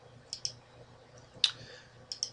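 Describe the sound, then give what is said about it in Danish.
Quiet plastic keyboard key clicks sound while a new contact is added and enter is pressed. There are five short, crisp taps: a quick pair, a single click, then another quick pair, with near silence between them. “Du tapper videre til tilføj ny kontakt og trykker på enter.”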